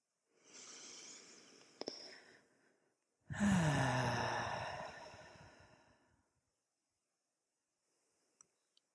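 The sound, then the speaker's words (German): A slow, calm breath in and then out: a soft, airy inhale is followed after a short pause by a longer, fuller exhale that gradually fades, with a few faint clicks near the end. “Dann atme mit mir immer einen ganz neutralen Atemzug.”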